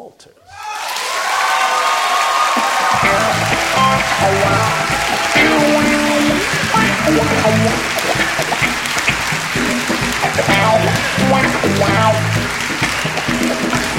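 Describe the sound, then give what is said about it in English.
Applause and cheering from an audience welcoming a poet to the stage swell up within the first second, then hold as a loud, sustained wash of clapping and crowd noise. “Please join your hands together.”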